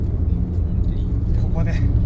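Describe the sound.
A car drives past on a road at a slight bend, its steady low engine and tyre rumble filling the whole stretch, with a brief rising whine appearing near the end.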